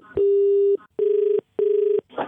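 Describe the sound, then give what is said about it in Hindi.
Telephone keypad tones sound as phone buttons get pressed inside a pocket: three steady electronic beeps, the first longer and the next two shorter, separated by brief gaps and followed by a short burst of rustling noise. “तेरी जेब में phone रखा होगा वो button दबा होगा बार बार”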